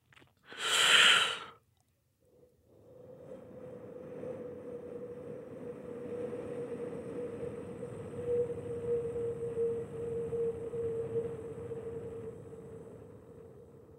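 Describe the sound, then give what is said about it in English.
Wind created as a sound effect for a film's musical composition. A short, loud rushing burst is followed by a brief gap, then a long, steady, hollow drone with a sustained low whistling tone that swells slightly toward the middle. “So wind sounds like this.”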